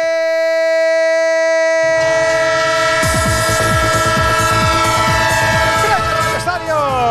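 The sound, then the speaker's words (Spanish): A train sound effect in a radio jingle: a loud, sustained multi-tone train horn, joined partway through by rumbling and rhythmic clacking of wheels that continues to the end. “El tren de Onda Cero que va a seguir surcando este domingo”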